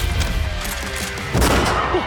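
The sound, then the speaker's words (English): Gunfire in a tense action scene: a noisy stretch of rapid shots, then a sudden louder burst of sharp cracks partway through, with no voices. “Shots fired!”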